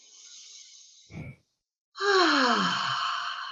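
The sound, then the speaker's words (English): A deep breath during an EFT tapping exercise: a breathy intake, a brief silence, then a long, steady sighing exhale whose voiced tone falls in pitch, with no talk over it. “And I like to take a breath here at this point.”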